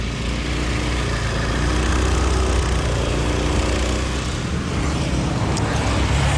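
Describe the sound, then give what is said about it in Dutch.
Motor scooter engine carrying a passenger through the city streets of South Jakarta: a loud, steady drone with a constant low rumble and road noise, holding level throughout with no voices. “Dus ik pak eventjes de Gojek, oftewel achter op de scooter, om even door de stad te crossen”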